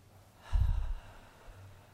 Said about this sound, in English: Let's practice taking a breath together. Just one breath.